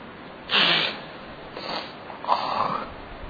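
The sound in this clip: Someone with a cold sniffs and clears a congested nose three times in close succession. The first sniff is the longest and loudest, and the next two are shorter and a little softer.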